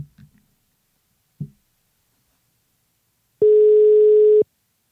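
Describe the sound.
A telephone line tone while a call is being placed: one steady beep lasting about a second at a constant mid pitch, following a few brief faint clicks.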